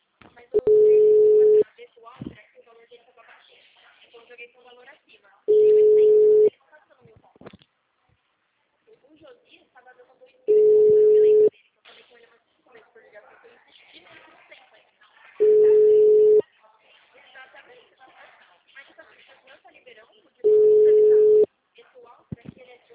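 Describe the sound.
Telephone busy signal: a steady low-pitched tone sounding in five long bursts of about a second each, separated by gaps of roughly four seconds, with faint murmuring noise in between.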